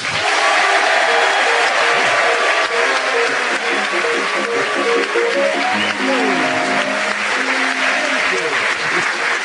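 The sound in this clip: The Minute Waltz plays as theme music at the start of a comedy panel show, its melody running continuously beneath loud, sustained audience applause.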